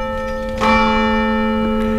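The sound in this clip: Church bell ringing from the bell tower of a village church in Périgord: a clear, resonant strike rises over a lingering, sustained metallic hum of overlapping tones, loud and heard alone.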